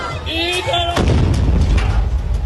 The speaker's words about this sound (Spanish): Ambos tambos explotaron y cientos de pedazos salieron volando para después caer, golpear y cortar a varios presentes.